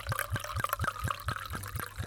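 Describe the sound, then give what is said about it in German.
Wine pours from a bottle into a glass in a quick, regular run of about nine glugs, moderately faint, with no voices. “Und nachgeschenkt.”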